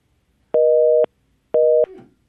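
A busy signal follows a phone-in caller's dropped line: two identical steady beeps of about half a second each, separated by an equal gap of silence, with a faint trailing noise after the second.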